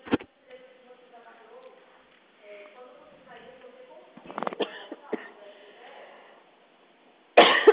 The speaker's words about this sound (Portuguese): Ai, desculpa, me engasguei.